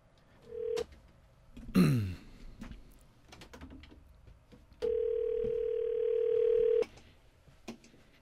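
Ringback tone on a telephone call: a brief tone burst, then a steady hum lasting about two seconds, over a quiet line with scattered clicks and a short rough noise between them.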